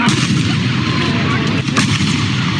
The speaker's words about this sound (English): Listen to the audio of the two shots.